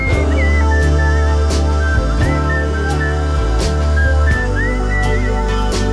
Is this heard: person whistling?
yes